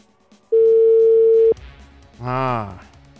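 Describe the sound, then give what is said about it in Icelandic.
Telephone ringback tone heard while calling someone: one steady, even tone lasting about a second, then a brief voice shortly after. “þá ætla ég að heyra í næsta manni að gá hvort að hann sé klár það já veit ég hvort að hann svarar Siggi Sveins”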